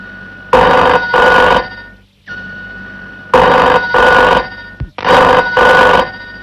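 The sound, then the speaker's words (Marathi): Telephone bell ringing loudly in repeated double bursts. Each pair of bright, trilling rings is followed by a short quiet pause before the next pair. “निश्चित दाशाचा phone असणार”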